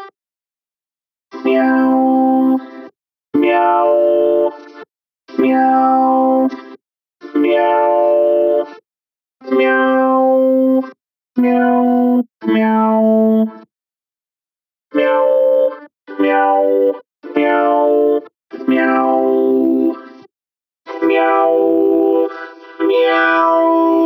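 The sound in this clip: A human voice imitates a cat's meowing, processed with effects: many loud, sustained meows in a steady series, each separated by a short silent gap, with no other sounds.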